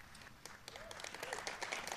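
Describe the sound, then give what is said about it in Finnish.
Faint applause from supporters at a US presidential announcement on leaving the Paris climate accord, a steady patter of many hands clapping. “Tämän vuoden kesäkuussa kuultiin aplodeja toisenlaisesta syystä.”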